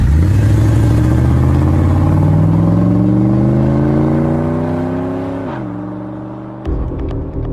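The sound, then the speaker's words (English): A Chevrolet car engine revs hard, its droning pitch climbing steadily for several seconds. The revs then drop off abruptly, and a sharp, louder burst of engine noise follows near the end. “let's fire up that Chevrolet.”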